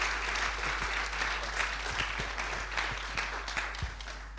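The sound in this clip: Church audience at Meadowbrook Church applauding a preacher as he comes up to speak, an even wash of clapping with a few soft low thumps, steady in level and without voices.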